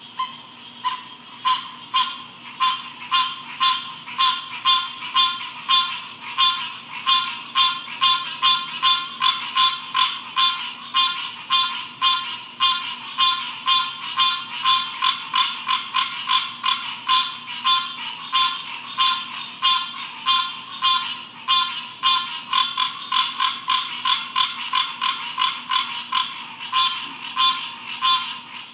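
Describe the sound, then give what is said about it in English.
Frogs croak behind a house in Florida, a steady, ratchet-like chorus of many rapid rasping pulses that repeat in an even rhythm and stay loud and unbroken throughout. “that was the sound of the frogs behind our house in Florida”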